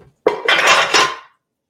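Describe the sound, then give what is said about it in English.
A spoon stirs very hot caramel with added baking soda and vanilla in a pot, making one loud, clattering scrape that lasts about a second and then stops. No voices are heard. “So I'm going to stir this in and the vanilla. And I'm going to stir.”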